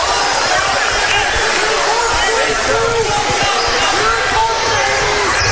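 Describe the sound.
A basketball is dribbled on a court during a game. Its steady, low bouncing thuds sit under a constant, loud crowd murmur.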